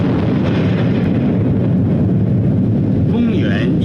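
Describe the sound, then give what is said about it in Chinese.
A deep, loud, sustained roar from the explosion of China's first atomic bomb in 1964: a heavy low rumble that stays at full strength throughout, with no separate blast onset standing out. “1964年10月16日15时，中国第一颗原子弹爆发出惊天动地的巨响。”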